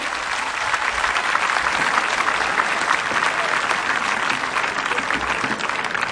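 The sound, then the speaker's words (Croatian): Audience applause after a concert performance at the Meštrović Gallery in Split: dense, steady clapping from a crowd, loud and even for the whole stretch with no voices on top. “Splitu naravno hvala na pljesku, Marku hvala na ovome fantastičnome nastupu.”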